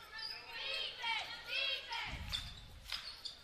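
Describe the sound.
A basketball is dribbled on the court during a women's game. A few low, thudding bounces sound under a commentator's voice.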